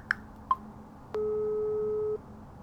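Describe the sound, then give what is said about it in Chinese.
A telephone call tone: two faint clicks, then one steady, mid-pitched electronic tone holding for about a second before cutting off. “他走到窗边，给蓝迪的经理打了个电话。”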